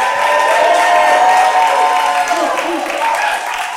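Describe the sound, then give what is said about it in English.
A live studio audience cheering and applauding at the start of a show, with dense clapping and voices whooping over it. The noise stays loud, then eases slightly toward the end. “We are live with the audience. Let's hear the audience one time for us.”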